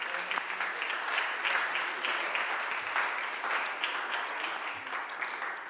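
Applause in the state senate chamber welcoming a visiting delegation in the gallery: a steady wash of many hands clapping that holds even throughout, with no voices over it.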